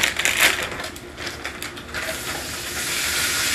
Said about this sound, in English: we're gonna go ahead and cut open this bag of the frozen green beans and just add it in.